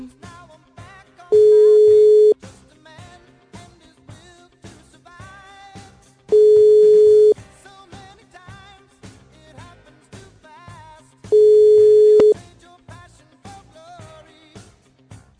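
Telephone tone while a call is being dialed: three steady, mid-pitched one-second beeps spaced about five seconds apart, standing out loudly over a quieter, busy rhythmic background.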